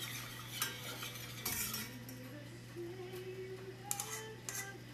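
A utensil clinks and scrapes faintly against a pan while an egg cooks in a home kitchen, with a steady low hum underneath.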